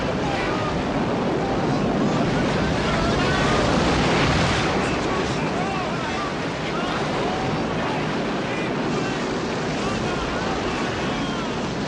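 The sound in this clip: Sea waves and wind rush steadily around a moving boat, a loud, unbroken wash of surf and gusty noise that stays even from start to finish.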